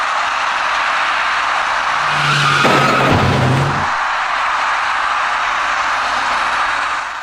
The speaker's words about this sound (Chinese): 由于刹车不及，一辆自西向东行驶的工程车打断了这位骑车人闯红灯而过的梦想